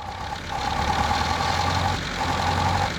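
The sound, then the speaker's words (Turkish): A four-cylinder car engine idles after an air-filter refit, with all cylinders now seemingly firing. A steady low rumble with a mid-pitched hum swells early on, then holds level with a brief dip partway through. “İşte çalıştı. Sesi de güzel. Dört silindirden ikisi yalnızca ara sıra çalışıyor. Sanırım artık dördü de çalışıyor.”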